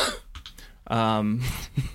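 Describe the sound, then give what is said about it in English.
An odd, strained cough or throat-clearing with a voiced, tonal middle section of about half a second. Rougher, shorter bursts come before and after it. “That's a weird cough.”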